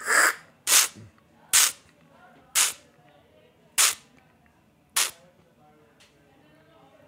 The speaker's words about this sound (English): you do a method called strepaggio, where you create a repetitive spray effect in the mouth, so it coats all parts of the mouth cavity, and then you stop, and then you swallow. So it sounds like this.